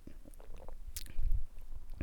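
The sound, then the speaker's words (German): A person takes a quick sip of a drink: faint wet mouth clicks and lip sounds, then a soft, low gulp near the middle, all quiet and brief with no talk. “Jetzt trinke ich mal einen kurzen Schluck, weil wird meine Stimme vielleicht auch ein bisschen schöner.”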